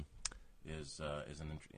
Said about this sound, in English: playing with my mic in front of me